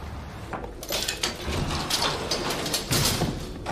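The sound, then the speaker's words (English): Sliding metal elevator gate pulled back, a rattling metallic scrape with repeated uneven clatters running for about three seconds, fairly loud and without voices. “She pulls back a sliding metal gate to an elevator, and they step in.”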